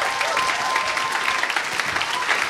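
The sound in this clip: An audience gives a church speaker a warm welcome with a steady round of clapping, loud and even throughout.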